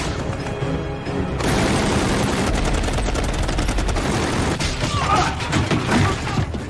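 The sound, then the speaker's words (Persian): Rifles and a machine gun fire continuously in a loud, dense barrage. Rapid bursts and overlapping shots run without pause for the whole stretch. “بزنینشون، زنده نذارینشون. همشون هدف بگیرید.”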